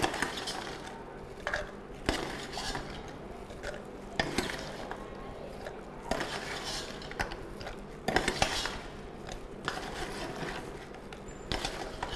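A spoon scoops contents into a jar, making repeated metallic clinks and scrapes against the container, with sharper taps at irregular intervals.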